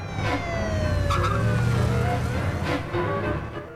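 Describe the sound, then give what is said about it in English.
A car reversing unsteadily across a lawn, its engine a steady, loud drone with whining tones that slide downward throughout. “The car backs unsteadily across the lawn.”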